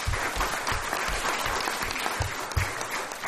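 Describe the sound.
A conference audience applauds a speaker, giving dense, continuous clapping at a moderate level that holds steady for the whole stretch.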